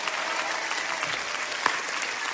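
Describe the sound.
Applause from an audience, dense and continuous clapping at an even level for the whole stretch, with no clear speech on top.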